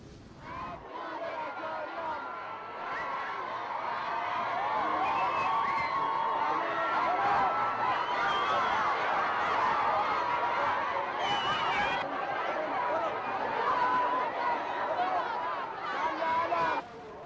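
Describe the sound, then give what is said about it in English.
A large crowd in Hamadan, Iran, chants and cheers loudly to welcome the Iranian president, a dense, sustained roar of many voices that swells early and stays strong throughout. “Iranian President Mahmoud Ahmadinejad arrived in the western province of Hamadan on Wednesday and received a rapturous welcome from the people there.”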